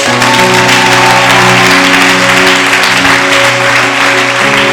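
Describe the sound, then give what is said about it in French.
Audience applause at a French-speaking church service: a dense, steady wash of many hands clapping over sustained musical tones, loud and continuous throughout. “Je n'ai pas dit d'applaudir.”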